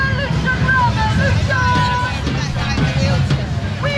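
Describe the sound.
Street ambience in London as thousands of people take part in two simultaneous marches, one pro-Palestine and one called by the far right. Constant crowd murmur and scattered voices sit over a steady low rumble like traffic.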